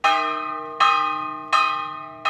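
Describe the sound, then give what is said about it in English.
A church bell rings for Sunday Mass: four full, ringing strokes spaced evenly, each ringing out and slowly fading before the next. The last stroke is cut off, and the bell sounds alone with no voices. “The murders don't stop on Sunday as the bell for Mass rings at his Church of the Divine Providence.”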